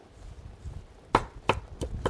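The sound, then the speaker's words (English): A knife rough-chops fresh basil on a board: four crisp chops in an uneven rhythm, clearly audible over a quiet background. “So this this basil plant's been growing for a while, and it really is great. I'm just going to chop a little bit, rough chop here.”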